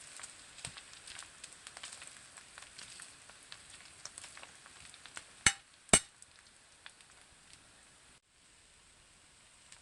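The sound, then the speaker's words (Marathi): Squeezed bitter gourd stir-fries in a pan with a faint, continuous sizzle and scattered crackles, punctuated by two louder sharp clicks near the middle. “आणि आता घट्ट पिळून घेतलेली कारली टाकून घेऊया. व्यवस्थित परतून घ्यायचे आहे.”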